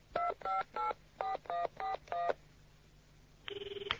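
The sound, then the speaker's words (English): A telephone number is keyed in as seven short, evenly spaced touch-tone beeps of varying pitch. After a brief quiet gap, a warbling ringing tone starts on the line. “I must have dialed the wrong number. I'll try again.”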